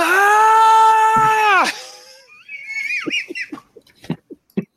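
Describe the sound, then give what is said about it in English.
A voice imitates the charging scream of a warrior running down a hallway with a power sword held high. One loud, sustained, high-pitched cry lasts about a second and a half, drops sharply at the end, and is followed by a few short squeaky vocal sounds. “Venari comes running down the hallway, power sword held high, screaming,”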